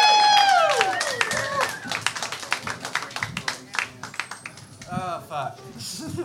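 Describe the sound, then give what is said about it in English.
Scattered hand clapping from a small audience welcomes a comedy duo, with irregular sharp claps of uneven rhythm and voices heard over them throughout. “Make some noise for Gender Fluids, everybody.”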